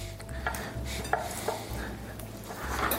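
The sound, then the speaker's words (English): Butter chunks dropping into a pan of eggs make a few soft thuds and light clinks over a low, steady background. “Each tablespoon can be cut up into 2 to 3 chunks and dumped them in there.”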